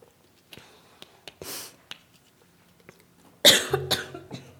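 Coughing after a drink went down the wrong way: a few faint throat sounds and breaths, then a sudden loud burst of harsh coughs near the end.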